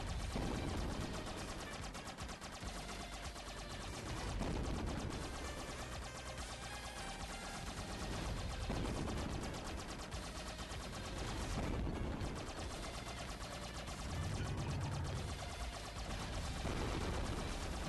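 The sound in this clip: Rapid gunfire from a video game, with shots fired in quick succession. The burst is dense and loud, with sustained crackling volleys that dip only briefly and no voices over it.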